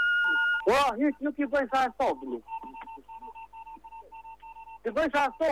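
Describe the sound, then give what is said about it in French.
Morse code beeps in a telephone message: intermittent thin electronic tones of short and long lengths, with talk before and after them. “Si vous comprenez le morse, n'hésitez pas à nous dire ce qu'il dit.”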